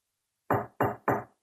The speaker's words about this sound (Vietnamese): Có tiếng gõ cửa trên cánh cửa phòng tắm.